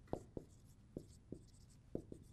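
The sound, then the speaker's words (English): Writing on a board in a lecture: six faint, sharp tapping strokes in an uneven rhythm, paired in quick clusters with short gaps between them, with no talking over them. “And this is maybe a long point, so I'll see how much I can write on the board.”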